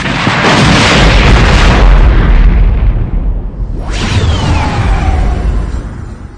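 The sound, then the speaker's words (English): A gutted gunship explodes in a loud, sustained roaring blast with deep rumble, followed partway through by a second swelling burst with a sweeping whoosh that fades out slowly. No voices. “Any reply Pelion might have sent went untransmitted, as, on the screen before them, the gutted gunship suddenly exploded.”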